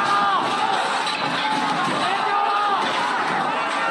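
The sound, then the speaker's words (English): Crowd shouting from factory workers protesting COVID regulations and lack of pay at a Chinese plant that makes iPhones: a dense, continuous roar of many raised voices, steady and loud throughout. “And that's the sound of workers staging a rare protest over COVID regulations and lack of pay.”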